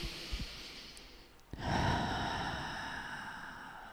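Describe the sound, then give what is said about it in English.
A deep breath in during a guided meditation: after a quiet stretch with a few soft clicks, a long airy inhale swells quickly and stays steady and breathy to the end. “And another breath in.”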